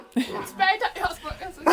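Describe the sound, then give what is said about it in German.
An excited dog barks in front of its room: a few short, sharp, tonal barks come in bursts among human voices. “Der Hund ist erregt, ne? Der Hund ist erregt. Er schimpft jetzt halt auch wieder, das ist hier sein Zimmer und wir stehen alle davor.”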